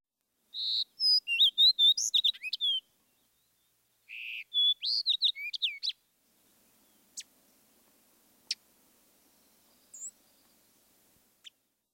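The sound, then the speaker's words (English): A Fox Sparrow sings two bright, rich phrases of rapid warbled notes separated by a short pause, followed by a few sharp, brief ticks. “Fox Sparrow.”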